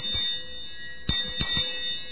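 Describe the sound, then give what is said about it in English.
A hand bell rings to call an assembly to order: a few sharp strikes, each leaving a bright, high metallic ring that lingers between hits, with no voices. “did you notice the bell? Okay, let's see if I can quiet this. Okay. Is the bell moving?”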